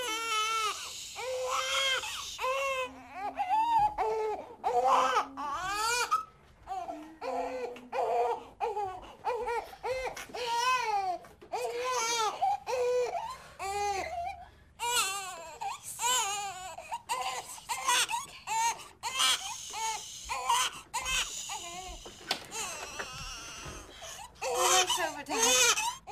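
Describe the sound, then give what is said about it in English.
A baby crying on a soundtrack, with an artificial, toy-like quality: repeated wavering wails continue almost without pause for about 26 seconds. “I just want to mention before we move the crying of the baby. The crying of the baby sounds so fake, in my opinion. It sounds like those toys that you get when you're like really young.”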